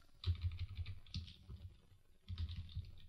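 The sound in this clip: Rapid typing on a computer keyboard while writing code: three bursts of clicky keystrokes separated by brief pauses, with no talk.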